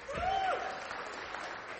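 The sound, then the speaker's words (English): Audience applause after a sermon, a faint, steady wash of clapping that holds at an even level throughout. “Give this man a round of applause.”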